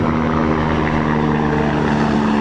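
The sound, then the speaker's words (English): A helicopter flies low overhead. Its engine and rotor produce a loud, steady, droning roar with a constant low hum that holds evenly throughout. “well, that's a low helicopter”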